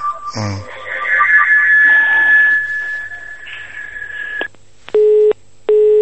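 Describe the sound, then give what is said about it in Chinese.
A telephone busy tone sounds after the call disconnects: two short, even, mid-pitched beeps with a gap between them. They follow a hissy, muffled stretch of line noise carrying a thin, steady high whine. “哎呀，电话，哎呀，断掉了”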